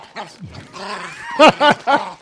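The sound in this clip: A person's voice imitates a crazy dog growl as a Bigfoot impression, a rough, low vocal rumble that ends in three short, loud, barking bursts.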